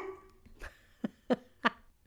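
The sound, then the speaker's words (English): A dog barking in a quick run of short, sharp barks, the last three loudest and evenly spaced, with no talk over them. “And that's my dog telling me happy birthday yet again. So I'm leaving that in.”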